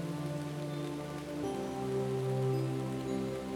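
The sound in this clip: Rain falls into ponds as a steady, soft patter, with sustained musical tones running alongside it throughout.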